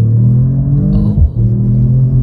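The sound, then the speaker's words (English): Deep exhaust rumble from a car driven hard in sport plus mode: a loud, steady low drone with a brief dip and waver midway through. “Basically, I threw it into sport plus mode and let it rip. Okay. And rip it did, with the exhaust gaining some extra attitude.”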